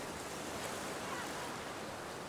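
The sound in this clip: Steady, even wash of ocean waves on a sunny shore, a soft continuous roar with no distinct breaks or swells, heard alone.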